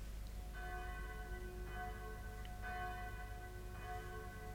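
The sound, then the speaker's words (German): A town hall bell rings in the morning in slow, evenly spaced strokes about a second apart. Its resonant tones are faint above a steady low background rumble. “Wer anders zieht am Strang der Rathausglocke als der alte blinde Kapitän Kett? Einer nach dem anderen werden die Schläfer aus dem Schlaf geläutet, an diesem Morgen wie jeden Morgen”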